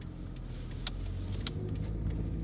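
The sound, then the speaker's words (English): A Toyota Prius hybrid car drives along, giving a faint, steady low rumble of motor and road noise with no sharp changes. “You put a key in? The motor starts. But the car's still on. Okay, so how do you get going again? You just... As you can tell, neither of us has ever driven a Prius.”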